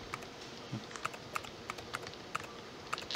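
Rapid keystrokes on a computer keyboard as a password is entered: many sharp, light clicks in an uneven rhythm, fairly faint over a soft background hiss, with no voices.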